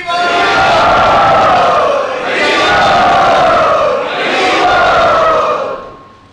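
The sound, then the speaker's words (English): Loud crowd cheering and shouting to welcome two guests at Radha Gopinath Temple, rising in three long, sustained swells of massed voices with brief dips between them before fading at the end. “Let us welcome these two illustrious souls to Radha Gopinath Temple very loudly.”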